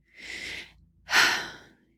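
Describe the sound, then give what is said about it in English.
A deep breath, heard as two long breathy sounds with a short pause between them. The second is louder and fuller than the first, and there is no talking. “let's try to start out by simply taking a deep breath”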